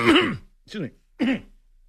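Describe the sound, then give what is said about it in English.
Throat clearing from someone with something caught in their throat: three short, rough voiced bursts separated by brief pauses, the first loudest and the last two a little softer. “I got something caught in my throat.”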